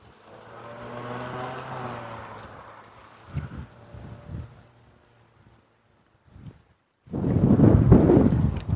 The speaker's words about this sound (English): now that's a sharp wind. I stepped out of the shade, the lee of the trees and the neighborhood and everything.